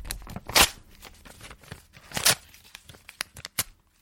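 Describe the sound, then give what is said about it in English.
A sheet of paper, a printed script, is torn up: two loud, drawn-out rips followed by a few shorter, sharper tears, crisp and papery with nothing else heard. “That's the sound of me tearing it up. Because I'm about to tear it up.”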